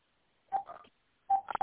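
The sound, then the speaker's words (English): Telephone dialing tones from a house phone on speakerphone: two quick clusters of short, bright electronic beeps, separated by a brief pause, with no talking. “So, on the house phone, there's a speaker button. Yes, yes. Okay, there. So dial 1-888.”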